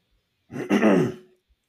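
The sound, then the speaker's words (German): A single throat clearing, a short rough guttural burst lasting under a second, heard alone with no talk around it. “ich glaube, ich muss viel schneiden mit dem ganzen Räuspern hier.”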